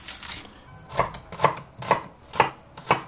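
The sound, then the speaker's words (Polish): A knife chops large onions into thick slices for onion soup, several crisp, evenly spaced chops on a board about half a second apart, alone with no talk. “Kroję cebulę w grubsze takie plastry, bo ona i tak się nam w zupie rozgotuje.”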